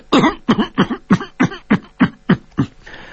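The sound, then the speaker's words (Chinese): A coughing fit from a woman slumped over a horse's back: nine sharp, evenly spaced coughs in a steady rhythm, each about equally loud and heard alone. “霍青桐伏在马背上，这个时候一阵的咳嗽”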